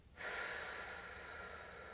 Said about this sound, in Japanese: では、ゆっくり吐きます。